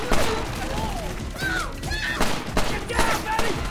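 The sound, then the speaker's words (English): Gunfire erupts in a shootout around a van, with many sharp, loud shots in rapid, irregular succession and voices mixed in throughout. “A balaclava-wearing Korean gets into the driver's seat of the van, but Ted shoots him point-blank in the head. Carol shoots a Korean on the van roof.”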